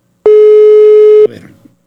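A telephone busy signal heard while dialing a colleague: one loud, steady mid-pitched tone holds for about a second, then cuts off abruptly into faint rustling.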